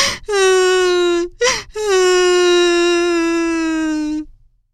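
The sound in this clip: A young girl lost in a forest cries, letting out a long drawn-out moaning wail, a brief gasping break, then an even longer sustained wail that slowly fades out.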